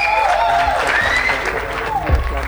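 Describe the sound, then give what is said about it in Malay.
An audience applauds at an evening singing event, a steady wash of clapping throughout while a voice speaks over it. “tepuk tangan dulu Mbak Noy.”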